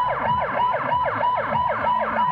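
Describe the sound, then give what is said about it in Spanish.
Ambulance sirens sounded by doctors protesting outside the United Nations office in Sanaa, Yemen; several loud sirens overlap with quick, repeated rising-and-falling sweeps and a steady high tone running through them. “Con estas sirenas de ambulancia, los médicos yemeníes protestan frente a la sede de la ONU en Sanaa.”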